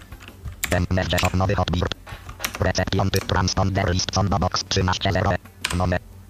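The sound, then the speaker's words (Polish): Clicks of keys pressed on a computer keyboard, a Ctrl S save shortcut during satellite TV receiver setup, sound as a few sharp taps buried under continuous talk. “Naciskam Ctrl S.”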